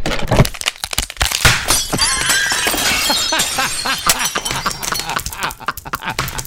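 A recliner lowering onto a phone produces loud, harsh crunching, with many sharp cracks, snaps and breaking sounds running on without pause.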